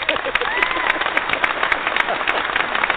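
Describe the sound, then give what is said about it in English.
Canned applause sound effect: a dense, steady crackle of many hands clapping that holds at an even level throughout, with a slightly muffled, narrow tone. “I got the sound effects for applause, and it sounds like this”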